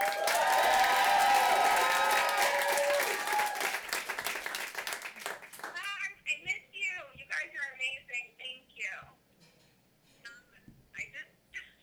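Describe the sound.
Audience applause from a large crowd, loud and dense for several seconds, then thinning and fading away as people start talking.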